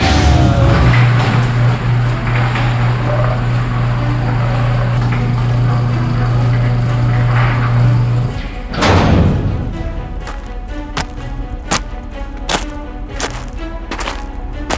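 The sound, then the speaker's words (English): A heavy gate swings open at a military stronghold. A low mechanical drone cuts off into a loud thud, then a run of clanking knocks and rattles plays over a steady rumbling background. “We're opening the gate.”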